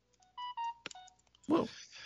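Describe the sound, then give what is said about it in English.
A mobile phone sounding off: a few short, steady electronic beeps in quick succession, then a brief, louder, noisy burst to close. “Whoa. That was my phone.”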